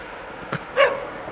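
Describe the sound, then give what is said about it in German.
A single short, sharp dog bark from a dog being teased into yapping, rising briefly out of steady background noise. “Kann ja ein bisschen mehr kläffen. Genau, Hundi ärgern.”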